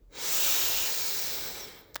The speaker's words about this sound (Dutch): haal eens een keer diep adem in door je neus.